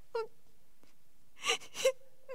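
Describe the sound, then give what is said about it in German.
A performer in a stage comedy starts to cry: a short wailing moan, two sharp sobbing gasps, then a whimpering cry and another moan beginning at the end. The sounds are fairly faint and separated by quiet gaps, with no talk. “Und jetzt fange ich gar zum Weinen an. Das gehört sich schon gar nicht.”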